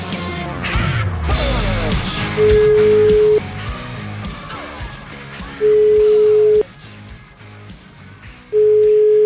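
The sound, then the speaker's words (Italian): Ringback tone of an outgoing telephone call: three bursts of a steady mid-pitched tone, each about a second long and the last cut short, separated by pauses of about two seconds over a continuous busy background. “Sentite un po', chiamiamo un attimo questo Codenotti, sentiamo.”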